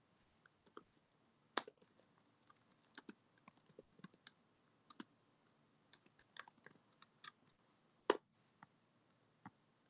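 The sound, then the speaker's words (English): Typing on a computer keyboard: many faint, irregular key clicks in quick bursts with short pauses, heard alone without talk. “Here, let me type in this thing.”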